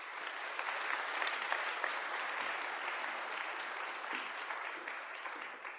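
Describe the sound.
An audience applauds to welcome a host onto the stage to introduce a dating-show panel. The clapping is brisk and steady, holding at an even level for several seconds before tapering slightly at the end.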